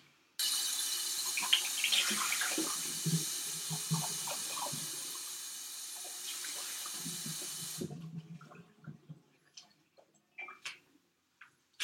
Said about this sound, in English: let's rinse out the butter